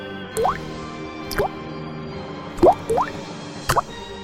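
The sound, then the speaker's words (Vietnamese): Water drips onto a floor, a few distinct plinks with a quick upward pitch sweep, spaced irregularly over a faint steady background, one of them doubled. “Những giọt nước nhiễu xuống sàn nhà”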